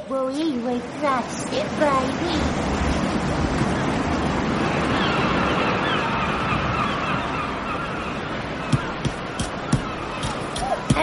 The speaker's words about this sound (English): Knocked over by a wave.